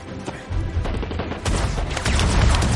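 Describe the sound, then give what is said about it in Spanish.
Gunfire rattles from armored vehicles during a sci-fi action firefight, in dense rapid bursts of shots and booms. The volley grows heavier and louder midway and stays continuous to the end. “Les disparan desde los blindados. 4 dispara a los blindados.”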